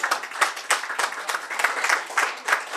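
Audience applause at a wedding anniversary celebration: many hands clapping in a dense, steady patter, with louder swells recurring throughout.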